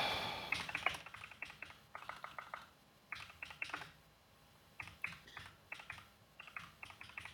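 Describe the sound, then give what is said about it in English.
Quick keystrokes on a computer keyboard during a text game, coming in many bursts of crisp clicks separated by short pauses, fairly faint and with no talk. “There's too much typing in these text games. Yeah, this is a lot of typing.”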